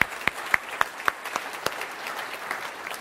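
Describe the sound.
A church audience applauding together in steady, dense clapping, with a few sharp, distinct claps standing out early before the sound settles into an even patter.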